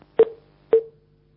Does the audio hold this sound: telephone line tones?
yes